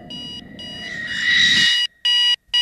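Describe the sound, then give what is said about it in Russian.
An alarm clock rings in a bedroom with a bright, high electronic tone in bursts split by short gaps. A rushing swell of noise builds under it before the last loud pulses. “Спальня. Звонит будильник.”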